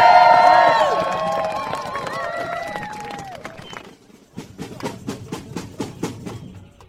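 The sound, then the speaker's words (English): A crowd at the Reclaim Power demonstration in Copenhagen cheers and whoops loudly, then the noise fades away. A run of steady rhythmic beats, like clapping, follows. “You've been listening to a sequence put together by Tom Besley and Arthur Gerling, giving a flavour of the atmosphere at yesterday's Reclaim Power demonstration here in Copenhagen.”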